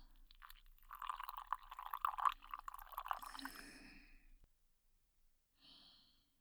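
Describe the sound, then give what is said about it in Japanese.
Water pours into a container to mix a mud for the skin, a steady rushing stream lasting about four seconds before it stops, followed by a brief faint sound near the end. “くまざったら、これにお水さ入れます。”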